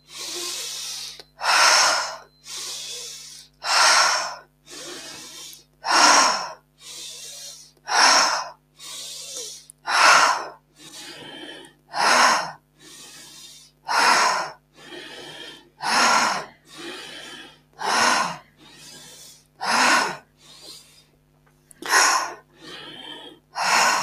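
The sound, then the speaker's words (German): Deep, forced inhalations alternate with releasing exhalations in a steady, rhythmic pattern of many loud, breathy bursts separated by short pauses, over a faint steady low drone, with no talking. “Richtig forcierte, tiefe Einatmung, lösende Ausatmung.”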